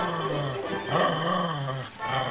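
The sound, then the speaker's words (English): A white wire-haired terrier gives a steady, raspy growling whine that wavers in tone, heard alone and fairly loud throughout. “the white, wire-haired terrier scrambles through the bushes lining the walk and runs toward the lawn beyond”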